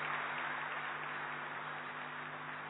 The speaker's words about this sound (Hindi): हम सब आपका बहुत बहुत करतल ध्वनि से स्वागत करते हैं।